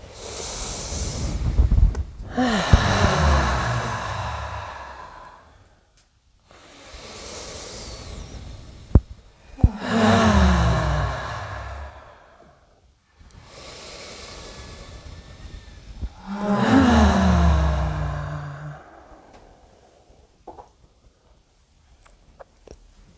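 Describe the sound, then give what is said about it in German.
Deep breathing in and out, three slow cycles of long, airy inhales and exhales, each breath rising and fading with short silent pauses between them. “Und dann können wir noch dreimal ein- und ausatmen. Tief ein.”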